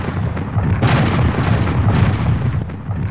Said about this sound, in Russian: И были наведены пушки, открыли огонь,